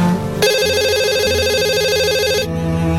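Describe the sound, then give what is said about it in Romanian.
A phone rings with a loud electronic ringtone, one continuous warbling burst lasting about two seconds before it cuts off, over faint background sound. “Nu răspunzi? Nu știu cine e, dar sună de când l-am deschis dimineața în aeroport.”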